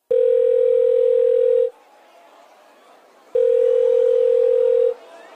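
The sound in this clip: A telephone rings as two long, steady electronic tones, each lasting about a second and a half, with a silent pause of similar length between them.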